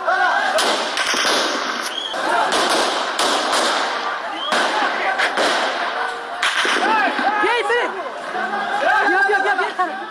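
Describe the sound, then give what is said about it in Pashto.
Gunshots fired into the air at a street protest in Kabul ring out as several sharp, loud cracks, spread through a dense crowd that shouts and chatters steadily throughout. “دوی اعتراض په فیسبوک باندې ژوندۍ خپراوه چیرې چې د ډز غوږونه هم اورېدل کېږي.”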